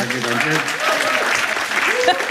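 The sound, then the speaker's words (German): Studio audience applause, a steady burst of clapping from a small crowd with people talking over it, loud and fairly even. “Sie dürfen nochmal klatschen, herzlich.”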